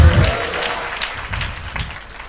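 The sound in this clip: Congregation clapping to glorify God in a church service, a burst of dense, loud applause that gradually thins and fades over two seconds.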